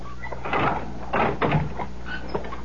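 A door opens and closes, making a few dull wooden clunks and scrapes spread across a couple of seconds with no talking over them.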